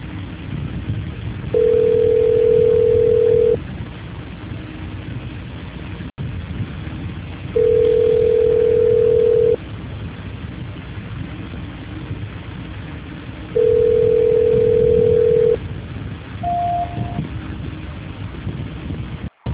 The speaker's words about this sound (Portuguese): só um minuto, só porque vou transferir a sua ligação. Linha, né? Isso, por favor. Só um momento. Transferência.